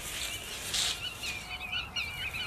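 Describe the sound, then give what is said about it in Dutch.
Black-tailed godwits call in spring, a string of repeated high, fluting notes over a steady background of other birdsong. “Ja, duidelijk het geluid van grutto's.”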